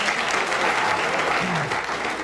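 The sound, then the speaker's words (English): Studio audience applause during a panel word game, a loud, steady burst of clapping lasting about two seconds. “Thank you for applauding my wisdom.”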